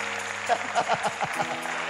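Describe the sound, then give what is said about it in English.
A church audience claps in praise, a few sharp claps falling in a loose rhythm over sustained musical tones, fairly faint throughout. “Oh, give him a better clap of praise.”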